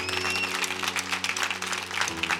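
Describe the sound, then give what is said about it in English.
An audience at a prayer gathering applauds and cheers, a dense, fairly quiet patter of clapping over a sustained low musical tone, with no clear speech. “Now you might be wondering why everyone's cheering.”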